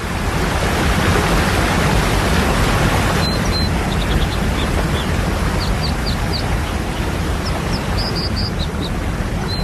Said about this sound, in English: This is the sound of the American dipper, a plump, slate-colored bird. It actually lives under waterfalls and builds its nest on ledges precariously perched between the rock and the cascade.